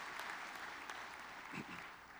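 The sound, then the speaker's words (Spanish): A church audience applauding during worship, a soft, continuous patter of many hands clapping at a fairly even level from start to finish. “Vamos a dar un aplauso al Señor.”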